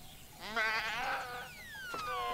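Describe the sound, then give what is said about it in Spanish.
A sheep bleats once in a wavering, quavering cry, loud and alone, then fades into a quieter tail. “¡Oveja!”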